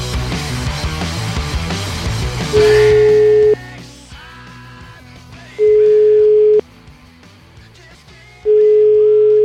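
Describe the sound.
A telephone ringing tone plays while a call is placed: three steady beeps of about a second each at a constant pitch, evenly spaced roughly three seconds apart over a dense, noisy background.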